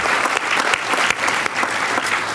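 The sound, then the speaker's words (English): A dense, steady round of audience applause for a speaker after a talk, loud and unbroken from start to finish. “please join me in giving another round of applause to today's speaker.”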